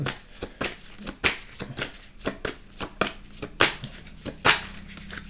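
Tarot cards are shuffled during a reading, in many short, crisp, papery bursts with an irregular rhythm, some louder than others, and no voices are heard.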